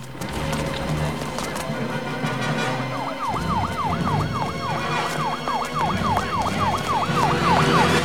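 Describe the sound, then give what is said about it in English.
Police car sirens wail as squad cars and vans rush up to a cathedral. A fast, repeating up-and-down siren sweep rises out of a dense, loud rumbling background and continues to the end. “a trail of squad cars and vans rush up to the building with the roof lights flashing.”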